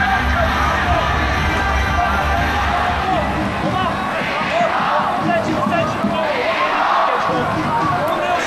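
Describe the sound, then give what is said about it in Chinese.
Football fans in a stadium shout the name of Kunming's home goalkeeper during a penalty shootout, a dense, continuous roar of crowd noise with a voice talking over it throughout. “现场的球迷大声的呼喊昆明队主队门将李一豪的名字。”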